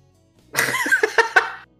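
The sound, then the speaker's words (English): Sputtering coughs from someone choking on coffee: a short voiced burst followed by a few sharp, loud pulses, then silence. “I'm actually coughing up fucking coffee.”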